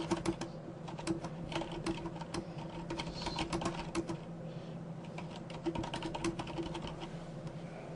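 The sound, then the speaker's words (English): Keys clatter on a computer keyboard as a tooltip message is typed into a CRM system, many quick, faint clicks in an uneven rhythm that runs throughout. “Click OK, and we'll type in some information.”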